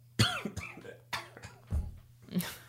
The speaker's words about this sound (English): that's a throat clear.